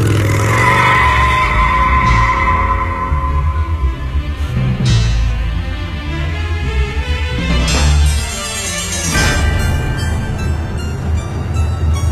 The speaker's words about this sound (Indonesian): Kemudian aku langsung tancap gas sekencang-kencangnya.